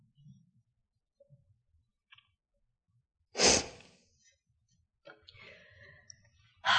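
A single sneeze: one sharp, loud burst of breath that stands out from near silence, with faint breathing and small clicks before and after.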